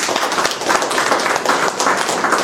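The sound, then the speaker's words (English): Audience applause at an evening talk: a thick wash of many hands clapping at once, loud and continuous with slight swells. No voices are heard. “Can we all give a round of applause to Matthew and Stephanie Denise?”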